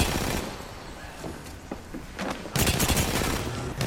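Video game gunfire rattles in rapid bursts of shots, sparser at first and then denser and louder in the final stretch, with no voices.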